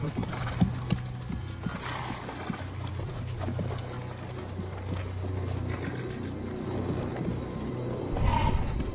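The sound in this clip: Horses carry riders at a steady pace across a forest edge strewn with large stones. Their hooves clip-clop continuously at a moderate level, and a whinny rises briefly near the end.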